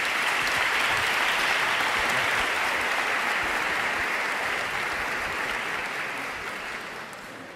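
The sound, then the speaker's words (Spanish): Audience applause at a faith conference held in a school: dense, sustained clapping from a crowd, loud and even, tapering off toward the end. “Sin más preámbulo, un fuerte aplauso y la palabra la tiene él.”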